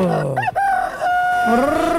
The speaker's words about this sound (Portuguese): Galo, galo, galo, galo, galo, galo, galo, cantando!